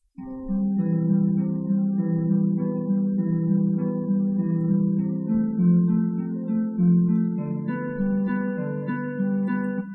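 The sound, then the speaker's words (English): Solo harp plays an Alberti bass pattern, steady repeating broken-chord notes in a low-to-middle register, moderately loud and even throughout with no other sounds. “So if I just play the harp by itself, it sounds like this.”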